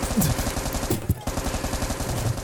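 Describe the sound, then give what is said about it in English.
Gunfire rattles from goblins shooting guns inside a caravan during a tabletop roleplaying game, with dense, rapid bursts running throughout and one sharper, louder shot near the middle. “Inside are beautiful goblin babes, and they all have guns, and they're shooting at you.”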